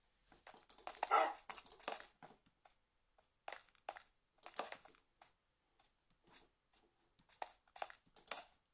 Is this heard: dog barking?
yes

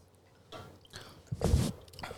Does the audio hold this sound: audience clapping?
no

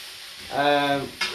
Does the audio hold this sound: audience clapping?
no

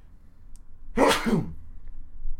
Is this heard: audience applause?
no

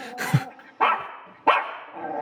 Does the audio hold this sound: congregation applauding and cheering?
no

